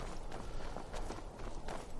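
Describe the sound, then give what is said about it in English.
Footsteps of a video game character briskly walking at almost a light jog down a pathway past an archway: quick, steady, soft steps over a continuous layer of background ambience. “we just passed through the last archway, sort of a briskly walking, sort of at a almost a light jog down the pathway”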